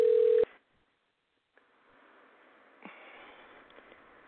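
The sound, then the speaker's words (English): A telephone being dialed gives one short, steady tone at the start. A silent gap follows, then a faint hiss on the line with a couple of soft clicks. “So coming up, I am dialing, and we should be talking with him shortly.”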